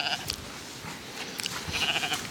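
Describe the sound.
A lamb bleating, with a brief bleat at the very start and a longer, wavering, higher-pitched bleat toward the end, set against steady background noise.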